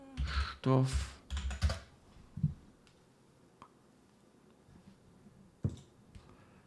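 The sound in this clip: Keyboard typing while notes are written up, a short burst of speech at the start followed by a handful of sparse, separate key clicks with quiet gaps between them.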